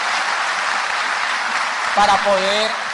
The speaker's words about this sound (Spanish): más de 50 obreros que trabajaron mucho día y noche para que, démenle un aplauso por favor a ellos